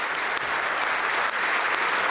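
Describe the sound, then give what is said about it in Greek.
Members of parliament applaud in the Greek parliament chamber. The clapping is dense, loud and continuous throughout, with no pauses or voices standing out. “Χειροκροτούν και οι βουλευτές και όσοι άλλοι παρευρίσκονται μέσα στην αίθουσα.”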